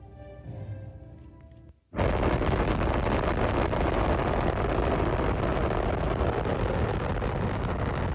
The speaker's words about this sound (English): you'll see the flame come out, and the rocket motor plume come out, and you might say, well, that's not very impressive. That's because you haven't heard the sound yet. 4, 3, 2, 1, fire.